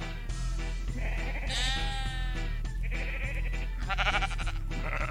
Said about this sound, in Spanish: Balar es esto.